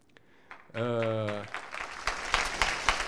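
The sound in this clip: Audience applause that starts with a few scattered claps and a brief sustained tonal sound, then swells into denser, lively clapping with sharp individual claps poking through toward the end.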